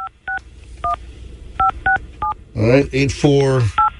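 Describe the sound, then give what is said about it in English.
Telephone keypad tones from dialing a number: seven short, clean two-tone beeps in an irregular rhythm, with a voice speaking briefly before the final beep. “Let me dial this thing up. 5-6. I hope it's not busy”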